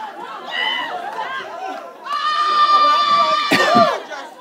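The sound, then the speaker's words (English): An audience jumping up and screaming, with excited overlapping shouts and shrill high voices over steady crowd chatter. The noise swells in the second half and peaks in a sharp burst near the end. “now, some of you jumped up and screamed because you like Daisy, you want a new car.”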